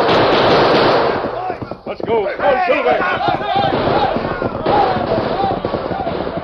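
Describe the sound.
Rapid gunfire from a radio drama shootout with riders on horseback: many loud, overlapping shots crackle continuously under urgent shouting voices.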